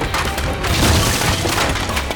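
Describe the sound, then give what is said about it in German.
A table crashes over and dishes break: a loud, dense two-second wash of clattering, splintering noise that stays even throughout, with no distinct single impact and no voices. “In diesem Moment sprang von Drachenfels vom Stuhl und riss dabei mit seinem dicken Bauch den halben Tisch mit.”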